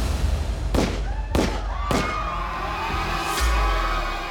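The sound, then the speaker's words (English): Three rapid gunshots ring out in a darkened theater during a stage song. The three sharp, loud bangs come about half a second apart over steady background noise. “Harry fired three rapid shots”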